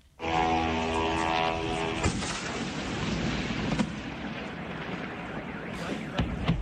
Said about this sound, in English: This was the sound of one drone flying into a Moscow oil refinery.